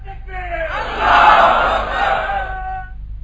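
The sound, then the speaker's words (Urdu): A crowd at a religious gathering answers the Nara-e-Takbeer call with one loud slogan shouted in unison. The massed voices swell to a peak partway through, then fade over about three seconds. “وہ محبت سے نعرہ لگائیں گے میرے ساتھ, نعرہ تکبیر, نعرہ رسالت.”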